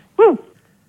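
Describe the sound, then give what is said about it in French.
A single short dog whimper over a telephone line, a brief high whine whose pitch rises then falls, heard alone against near silence. “Je crois qu'ils ont un chien”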